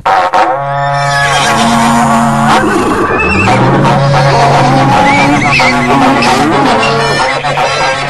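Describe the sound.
A berrante cattle horn call rings out amid Brazilian caipira country music, sounding as a few long, low, buzzing blasts, one bending upward in pitch, over a dense, busy backdrop.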